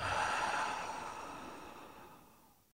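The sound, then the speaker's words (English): One slow, soft breath drifts out in a breathy hiss, quiet and alone, fading steadily over a couple of seconds before stopping. “Do that one more time. Breathe in and out.”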